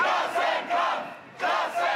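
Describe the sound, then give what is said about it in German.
Union demonstrators in Kiel, protesting cuts to pensions, health and work, chant together in a few loud rhythmic bursts, each separated by a short dip. “Gut 5000 sind es laut Veranstalter, die heute allein in der Landeshauptstadt demonstrieren.”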